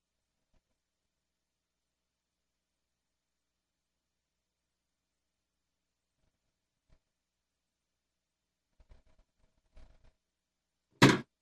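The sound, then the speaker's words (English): An electronic cigarette gets knocked over: long near-silence, then a few tiny faint knocks, and finally one sudden sharp clattering burst at the very end. “knocking stuff over. It's okay. It's just my electric cigarette.”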